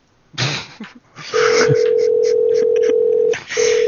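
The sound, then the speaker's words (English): Telephone dial tone hums steadily while a series of short keypad beeps sounds over it as a call is placed, with a brief break in the tone before it resumes. “We're calling two people at the same time now.”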